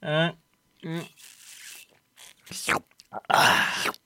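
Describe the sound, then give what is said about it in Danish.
Crunching, smacking bites of someone eating a salty dinner cracker, several short broken bursts of chewing noise that follow a couple of brief vocal sounds. “Smatte og snaske delen av programmet her.”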